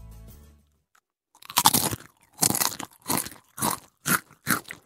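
Crunching of a salty potato chip: after a brief pause, a run of loud, crisp bites and chewing crunches, each burst sharper and shorter than the last, with no talk over them.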